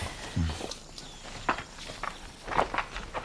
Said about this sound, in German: Gehen wir doch mal ein Stück ums Haus herum.